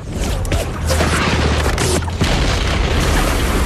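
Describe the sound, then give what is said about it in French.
Gunshot sound: a loud, dense booming roar fills the whole clip, with a few sharper bursts standing out from the continuous rumble. “Avec le coup de fusil”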